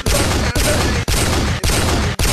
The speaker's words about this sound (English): You just got sniped.